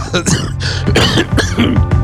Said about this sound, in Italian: quasi la tosse mi mina profondamente